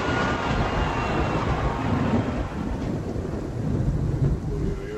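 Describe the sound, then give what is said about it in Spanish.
Thunder rolls as one dense, steady roar for the whole stretch. A deep rumble sits under a broad, hissing wash with no clear breaks, and the loudness stays high throughout. “¿Y esos truenos?”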